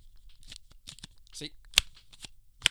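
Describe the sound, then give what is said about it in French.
An old flip phone is opened and handled, with soft rustling and scraping followed by two sharp, bright clicks near the end. “Regardez qu'est-ce que ça fait un flip-flop.”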